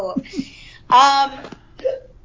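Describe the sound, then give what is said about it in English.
A person hiccups, giving abrupt vocal catches mixed with other short voiced sounds, including one louder, longer burst in the middle. “Excuse me, that was a hiccup.”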